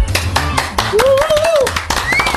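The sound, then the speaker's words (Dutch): Applause in a radio studio, made of a few sharp claps in rapid succession over a low background, with a thin wavering tonal whistle running through the middle. “Voordat we ze gaan voorstellen, eerst een applaus.”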